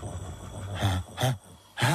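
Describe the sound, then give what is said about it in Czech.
Deep, groaning snores from someone who has eaten his fill of beechnuts: a few drawn-out, rumbling breaths with a rough, voiced quality, rising and falling in loudness with short pauses between them. “Sláva, nic nerozřezal. Nadspal se bukvic a teď chrápe.”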